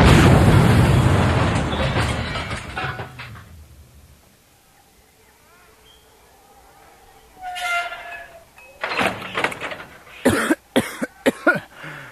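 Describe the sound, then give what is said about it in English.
A secret torpedo travelling at six times the speed of sound strikes a spaceship's shields with a loud roaring blast that slowly fades over several seconds, followed later by bursts of rattling, clanking noise. “It's a secret torpedo doing magnitude 6 over the speed of sound. Tot, hit the shields! Hit the...”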